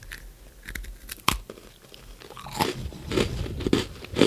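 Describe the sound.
Crunching of Oreo cookies being bitten and chewed: a series of sharp, crackly crunches, sparse at first and then more frequent and louder toward the end, with no talking.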